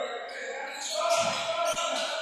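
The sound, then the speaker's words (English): A basketball dribbled on the court during a game against the Owls, with a few dull thumping bounces under steady play-by-play commentary and crowd murmur. “Reese drives all the way to the baseline. Still with the dribble, gets it to Rulo.”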